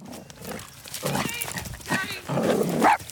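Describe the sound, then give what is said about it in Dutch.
Dogs barking as one runs up to another to play, with a few short, harmonic barks that come in separate bursts and grow slightly louder toward the end. “Oh, er komt even een hond op mijn hond afgerend. Die komt even spelen.”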